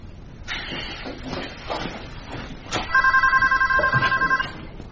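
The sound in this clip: A telephone rings before going to voicemail. A rapid electronic trill of ringing pulses fills the second half, preceded by a few soft knocks and clatters.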